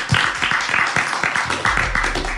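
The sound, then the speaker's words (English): Audience applause, a dense wash of clapping with a few sharper individual claps and some low murmuring underneath, holding steady for the whole clip. “Another round of applause, please.”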